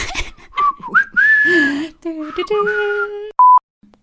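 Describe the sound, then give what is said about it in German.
Mouth beatboxing: a quick string of clicks, buzzy tones and whistled glides, then held whistle-like tones and a short, pure, beep-like note, ending with a faint blip. “Das ist so ein kleines Beatbox-Konzert in deinem Mund gehabt.”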